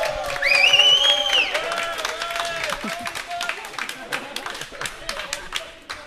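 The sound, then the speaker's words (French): An audience at an evening show at the Grand 8 in Rennes claps and cheers: shrill whistles and crowd voices early, under many quick claps that carry on and fade toward the end. “Donc pour les gens qui ne sont pas là, faites du bruit pour qu'on ait la preuve. Allez, le public.”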